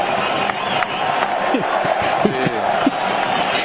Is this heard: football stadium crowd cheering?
yes